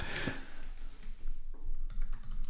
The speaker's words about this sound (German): Das schreibe ich mir jetzt auf. Das schreibt er mal auf.